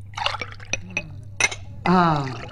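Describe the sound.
Water poured into a glass, a bright, ringing gurgle in the final second that follows a few light taps and clinks.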